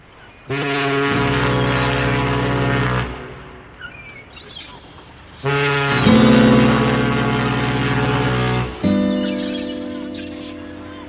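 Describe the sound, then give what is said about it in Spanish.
Deep ship's horn from a vessel carrying immigrants, sounding in three long, sustained, low harmonic blasts, the second and third following closely, loud and alone. “Bueno, nos han traído el sonido del barco y todo, ¿eh? En los que llegaban, ¿eh?”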